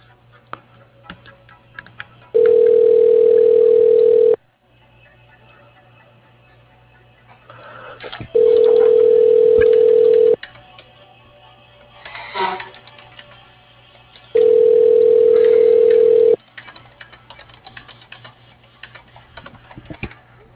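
Telephone line tone during a call transfer: three steady mid-pitched tones, each about two seconds long, separated by longer stretches of quiet line hiss with faint clicks.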